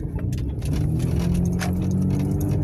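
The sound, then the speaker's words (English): Steady car noise heard from inside a moving vehicle: a continuous low engine and road rumble with a constant hum and a few faint higher rattles, unbroken throughout. “Sorry, I'm driving.”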